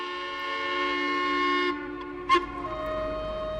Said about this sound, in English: That's the toot of the paddle steamer Marion.